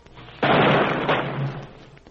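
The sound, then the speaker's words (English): A rifle volley fired across a grave at a soldier's funeral: one sudden, sharp burst followed by a rumbling decay that trails off over about a second and a half. “A volley was fired across his grave, and as taps sounded”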